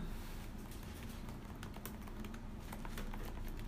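Rapid typing on a computer keyboard: many quick, light key clicks in an uneven run over a low, steady hum, with no talking.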